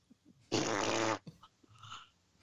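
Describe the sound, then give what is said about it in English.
A single loud, raspy fart that lasts under a second in the backwoods of Louisiana, followed by faint, scattered small sounds. “Somebody farted. Somebody farted.”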